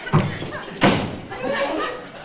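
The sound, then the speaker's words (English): A door is slammed shut amid a comic argument. Two heavy, booming thuds land in quick succession, with voices over a busy background. “Well, close the door. Oh, go ahead, close it.”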